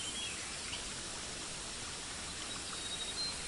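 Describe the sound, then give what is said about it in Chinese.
Flowing water in a natural setting, a constant even rush of hissing noise with no breaks or change in level, steady and alone throughout. “流水的声音包围住你，感觉一下颜色、光线、身体的温度。”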